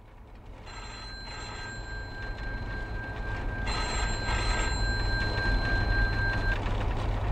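A telephone rings late in the evening with two long, steady electronic rings separated by a short pause, over a constant background hiss.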